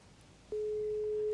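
Telephone ringback tone on an outgoing call: a steady, single-pitched electronic tone begins partway through and holds unbroken to the end, with no other sound.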